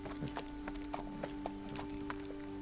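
Horse hooves clip-clop as the animal is ridden at a slow walk, a steady series of sharp, fairly faint knocks over a constant low tonal background.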